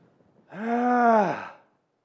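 A single drawn-out human groan offered as a wordless prayer. It is voiced and sustained for about a second, then trails off as its pitch dips at the end.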